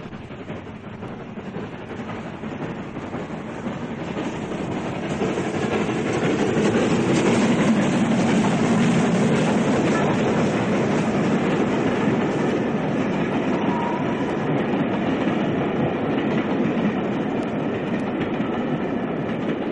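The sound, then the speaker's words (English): The Flying Scotsman steam locomotive hauls a train as it accelerates away from Northolt Junction. A broad, rumbling roar builds in loudness over the first seconds, then holds steady with a continuous rhythmic clatter. “the sound you hear now is of Flying Scotsman accelerating away from North Holt Junction”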